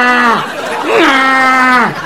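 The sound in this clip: A voice imitates a donkey's bray in two drawn-out, nasal, harmonic calls. Each call ends with a downward pitch drop, loud and alone.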